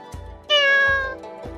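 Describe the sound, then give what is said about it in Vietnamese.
A black cat gives one clear, loud, drawn-out meow in the middle, with a few soft, low thumps before and after it. “Mèo đen thấy Triển Chiêu và Bạch Ngọc Đường đi đến, đột nhiên kêu một tiếng.”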